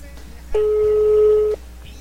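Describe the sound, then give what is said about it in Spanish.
A telephone call being connected gives a single steady ringback tone lasting about one second, sounding alone over a faint low hum. “Vamos a ver, ya estamos enlazando la llamada”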